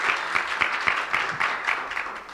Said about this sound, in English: give our Sunday school teachers a hand of applause and a thank you